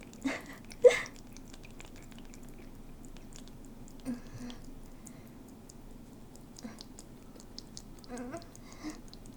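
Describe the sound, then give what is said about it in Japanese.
Quiet, wet chewing with sticky mouth clicks comes in scattered bursts, a louder cluster near the start and softer, sparser ones later, over a faint steady hiss. “どんな具？お肉かな、わからないけどなんだろう、噛めば噛むほど美味しいよ。”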